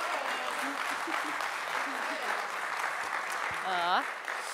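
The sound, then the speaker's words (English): Church audience applauding a welcome for guest speakers: a dense, steady wash of clapping throughout, with a voice rising in pitch near the end. “So let's give them a big, rowdy, warm welcome.”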